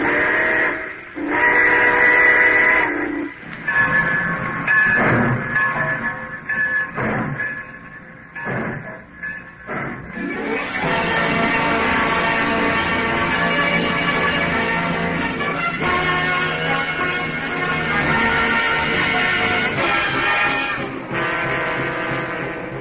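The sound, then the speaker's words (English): A steam train whistle sounds as the train departs in a radio drama sound effect: a few loud, tonal whistle blasts, then a long, steady rolling sound from the moving train. “All aboard! Well, folks, it looks as though we're ready to pull out.”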